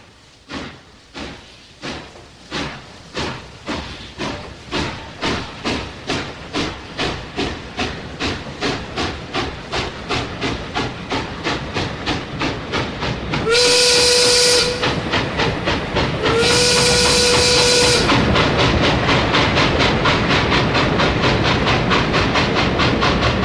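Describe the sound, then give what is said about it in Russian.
Steam locomotive chuffing: rhythmic exhaust puffs start slow and steadily quicken into a fast beat, then two long, loud, shrill whistle blasts sound over the running engine. “Едет, едет паровоз. Хе.”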